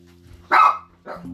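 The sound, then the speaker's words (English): A dog barks twice over a low steady hum. The first bark is loud and full, and the second comes shorter and softer a moment later. “That's my dog, Bosco.”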